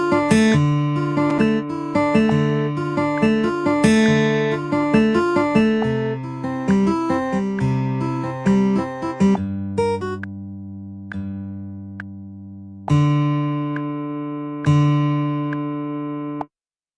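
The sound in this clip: Acoustic guitar chords played as a repeating recorded part in a music production session. A busy looping chord pattern runs for about nine seconds, then full chords ring out alone, each struck and left to fade, with no voices.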